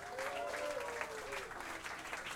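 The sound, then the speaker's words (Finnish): Audience applause at a live jazz club night, a dense, steady clapping that holds at an even level through the whole short clip. “Jatsissahan yleensä taputetaan soololle, joten tässä on hyvä harjoitella aplodeja.”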